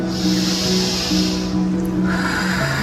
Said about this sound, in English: And now, sisters and brothers, join me in a deep breath